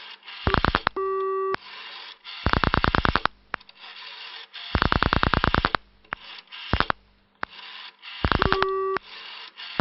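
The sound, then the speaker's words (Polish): Rotary telephone pulse dialing on a long-distance call to Chicago: several bursts of rapid, crisp clicks separated by short pauses, with a steady buzzing busy tone near the start and again at the end. “Jeszcze jest naprawdę niezbyt przyjemne wykręcać tyleż cyfer. No nie mamy jeszcze, więc spróbujemy jeszcze raz.”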